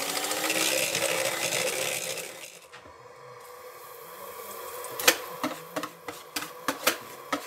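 An electric mixer whips egg whites into stiff peaks with a steady, buzzing motor whir for about two and a half seconds before cutting off, followed by a string of sharp clicks and taps.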